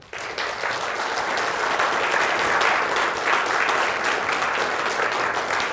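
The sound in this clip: An audience at the Pritzker Military Museum and Library applauds to welcome a speaker, full and steady clapping from start to finish after a brief quiet opening.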